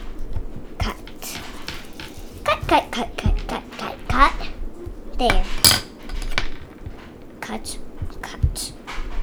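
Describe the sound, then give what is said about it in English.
A knife cutting a cake into small pieces makes a rapid series of sharp taps and clinks against a hard surface. Voices talk throughout. “I'll make a small cake. This is big. And then cut, cut, cut, cut.”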